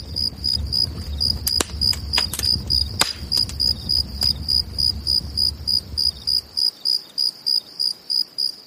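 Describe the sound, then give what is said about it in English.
Crickets chirp in the bush at night in steady, rhythmic high-pitched pulses that repeat evenly throughout. A few sharp clicks sound in the first seconds over a low rumble, which then drops away and leaves the chirping alone. “it was amazing being surrounded by the sounds of the bush at night with the stars above.”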